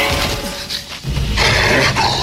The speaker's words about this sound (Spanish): Cerca de allí, un Morlock olfatea el aire y da la alarma con un rugido.